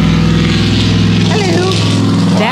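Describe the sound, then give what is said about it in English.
A big truck drives past, giving a loud, steady engine drone with a low rumble that lasts the whole clip, while people talk over it. “That was a truck. Oh, just a truck. That was a big old truck. Yeah, just a big old truck.”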